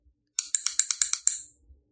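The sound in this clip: A quick clicking sound effect: eight bright, rapid clicks in an even rhythm, the last one ringing out briefly before silence.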